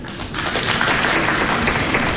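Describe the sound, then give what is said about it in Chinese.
Audience applause at a stage comedy performance, beginning after a brief quiet moment and then holding as a dense, steady roar of clapping to the end. “您就叫好，好，您喊，鼓掌，鼓掌，鼓掌，鼓掌。”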